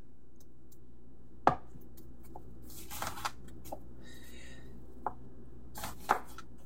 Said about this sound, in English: we can grab out our sharp knife and go ahead and prep the rest of our ingredients. Now over here, I have one onion and I'm going to just slice it across the roots.